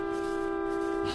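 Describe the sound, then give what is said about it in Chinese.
A car horn is held in one continuous blast, a steady, loud buzzing tone with strong harmonics that does not break or change pitch. “找谁也不能这么摁喇叭呀”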